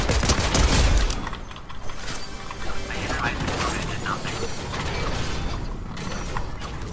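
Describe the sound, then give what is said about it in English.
Continuous gunfire in a shooter video game, with dense, rattling bursts of rapid shots and mechanical clatter that never stop. The firing is loudest at the start and keeps going at a steady level. “whoever's non-stop shooting over here is about to die to me”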